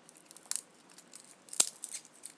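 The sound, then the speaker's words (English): Papery crackling of garlic cloves being peeled by hand, a few soft, crinkly rustles and tearing snaps, faint and alone. “garlic. So just peeling that, doing that tactily as well. You don't really need to see, do you, to peel garlic.”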